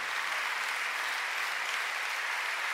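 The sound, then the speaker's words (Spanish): A church audience applauds, offering praise to the Lord. The clapping is a soft, even, continuous patter that stays level throughout, with no voices standing out. “Cuando le dan un aplauso al Señor por esa presencia.”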